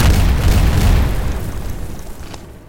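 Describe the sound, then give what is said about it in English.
A loud, deep explosion booms in a video game, a heavy rumbling blast that slowly fades away over a few seconds. “Did something just explode?”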